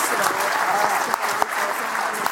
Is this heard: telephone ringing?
no

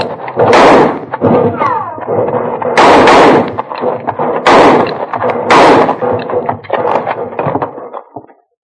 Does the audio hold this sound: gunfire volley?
yes

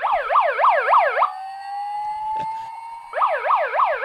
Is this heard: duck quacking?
no

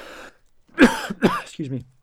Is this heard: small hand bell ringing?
no

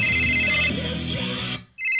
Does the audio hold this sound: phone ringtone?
yes

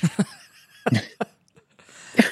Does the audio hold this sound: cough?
yes

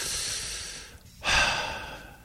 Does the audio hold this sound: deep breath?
yes

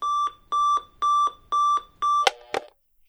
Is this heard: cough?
no

